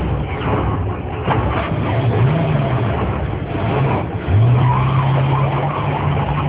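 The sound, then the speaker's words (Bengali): A car driven fast on the way to a resort gives a loud, continuous engine roar whose pitch rises twice as it accelerates. “ড্রাইভারকে একটু break দেওয়া হয়েছে, তাই এসে একটু নিজে গাড়ি চালিয়ে ছুটে আসেন চড়ুইভাতি রিসর্টে”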